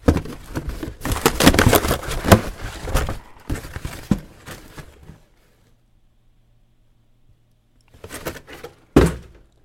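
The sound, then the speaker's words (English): A cardboard box kept in a closet for 13 years is opened quickly: busy rustling and tearing handling noise, a stretch of near silence, then a couple of short thumps. “I'm going to open a box really fast. I've had this thing in my closet for 13 years.”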